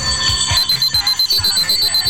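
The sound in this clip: An alarm clock rings in rapid, evenly repeated bursts carrying a steady high-pitched tone, loud and continuous from start to end with no voices.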